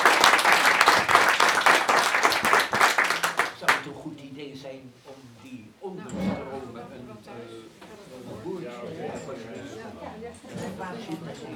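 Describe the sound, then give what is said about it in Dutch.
At a debate on European security, an audience applauds the panel and its moderator with loud, dense clapping for the first few seconds. It then dies away and talking takes over. “Even applaus voor het fantastische panel en Harry.”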